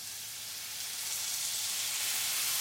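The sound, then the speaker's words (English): Cider poured onto vegetables softened in butter sets off a broad, bright sizzle that grows steadily louder and more intense. “You want to soften them nicely in the butter. So those are nicely softened. Now what I'm going to do, I'm going to add the cider.”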